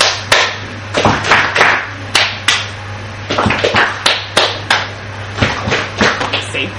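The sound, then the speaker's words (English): Hand claps in a call-and-response attention pattern, many sharp, crisp claps in short irregular groups over a faint steady low hum. “So if I go clap, clap, and you repeat back”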